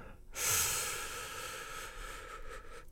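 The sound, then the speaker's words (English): A deep breath drawn in through the mouth makes a loud, airy rush that swells quickly and then eases into a long, steady hiss. No voices are heard. “And a second, a big breath in”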